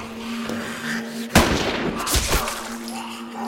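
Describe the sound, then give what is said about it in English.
A rifle gunshot in a film scene, fired at an attacking man: one loud, sharp crack that cuts through a low steady background, followed by rumbling noisy bursts. “His face contorted into a hateful mask, he comes at Tammy, and she shoots him in the shoulder.”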